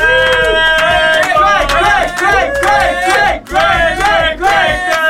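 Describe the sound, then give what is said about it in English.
A party crowd in a radio studio cheers and shouts together, loud and sustained, with chanted, singing-like voices rising over one another and two brief dips in volume. “As you can tell, there's a party in the studio. Hopefully it's a party where you are.”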